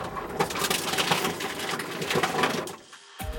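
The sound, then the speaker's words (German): A reverse vending machine noisily crushes plastic bottles with a loud, crackling, grinding clatter that runs steadily, drops off briefly near the end, then starts up again. “was passiert eigentlich mit den Plastikflaschen, die im Rückgabeautomaten so geräuschvoll zerquetscht werden?”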